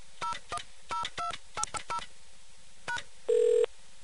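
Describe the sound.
Telephone keypad tones beep as a number is dialed to reach AT&T, a quick run of short beeps in an uneven rhythm, followed after a pause by one longer, louder steady tone.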